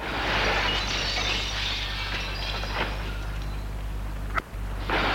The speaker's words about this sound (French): donne des coups de pied à la vitre.